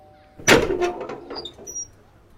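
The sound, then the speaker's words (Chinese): A door being opened at a small Western-style house in a foreign concession district, after the doorbell was rung several times: one sharp, loud knock-like onset followed by a short rattling tail that fades within about a second. “林叔按下门铃，按了三四下才有人来开门，”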